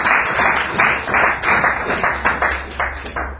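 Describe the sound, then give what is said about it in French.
A church audience claps loudly in acclaim during worship, with many claps in a steady, pulsing rhythm throughout. “Acclamons très très fort pour le roi.”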